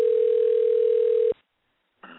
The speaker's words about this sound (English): Is that the phone ringing there? Yeah. Okay. That's us calling.